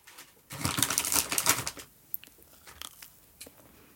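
Crunchy homemade cookie being bitten and chewed: a dense burst of loud, crisp crunching lasts about a second and a half, followed by fainter, scattered chewing clicks.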